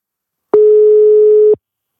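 A telephone call being dialled gives one loud, steady, mid-pitched tone lasting about a second, clean and alone, with silence before and after.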